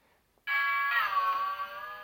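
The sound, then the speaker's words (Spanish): A doorbell rings: a single bright, sustained tone starts abruptly and holds steadily to the end, heard on its own without talking. “Perdón, es el timbre.”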